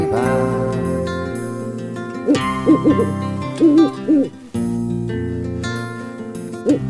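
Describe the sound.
Owl-like hoots, several short tones with bending pitch, sound over a sustained musical backing in a children's song about a little owl as night ends.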